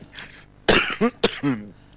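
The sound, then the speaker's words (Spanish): A woman coughing, four short raspy bursts in quick succession, the first the longest, each loud against a quiet background. “Y toso para todos.”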